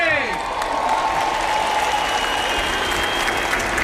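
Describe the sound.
A crowd applauds and cheers as the Pope's procession passes close by through the aisles among the people, with sustained clapping and mingled voices throughout.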